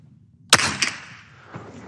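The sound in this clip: A rifle is fired at a target during shooting practice: one sharp, loud crack with a short decaying tail, followed by fainter knocks.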